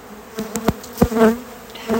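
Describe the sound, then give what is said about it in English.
Honeybees buzz in a large, crowded hive colony as frames are worked, a steady mid-pitched drone that swells and fades, broken by a few sharp brief bumps and taps. “There are so many bees in this hive. So many.”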